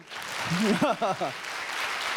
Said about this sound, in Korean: 큰 박수와 응원의 박수와 격려를 부탁드리겠습니다.